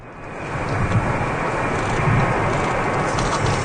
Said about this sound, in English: That's the sound of a plane carrying four Canadians from the Canary Islands landing this afternoon.